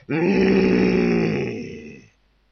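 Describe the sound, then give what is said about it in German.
A deep human voice imitates a lion's threatening roar: one sustained, loud, low growling roar lasting about two seconds, rough and throaty, tapering off at the end. “Von der Löwenmähne umwallt, steckte er den Kopf ins Nest und brüllte mit tiefer Stimme ein drohendes”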